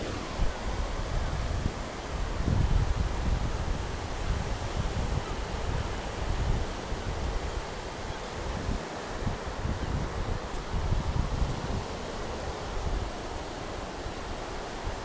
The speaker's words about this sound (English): But this is the sound of the sea. The tide coming in.